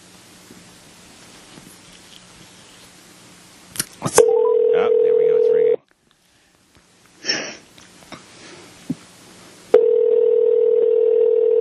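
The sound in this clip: Telephone ringback tone on a call to Ringgold, Georgia, waiting for someone to pick up: two long, steady electronic ring tones. A quiet rustle comes between them, and the second tone runs on to the end after a stretch of low background noise.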